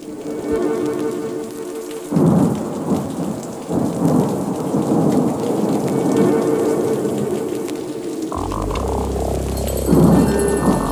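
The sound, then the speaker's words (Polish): Steady summer thunderstorm rain hisses and patters continuously while deep rolling thunder rumbles underneath, swelling into a heavier low rumble near the end; no voices are heard. “A może coś pomiędzy, może właśnie taka letnia burza? Ja chcę sobie tak to wyobrażać.”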